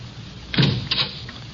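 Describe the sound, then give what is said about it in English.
A door being locked gives two brief mechanical clunks about half a second apart, soft over a faint steady hiss. “Come on, lock the door with me.”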